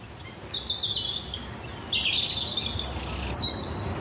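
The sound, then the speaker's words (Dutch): A European robin sings in winter, giving a few high, thin twittering phrases with short pauses between them over a low, steady background rumble. “Neem nou deze roodborst van Niels van Vliet uit Prinsenbeek.”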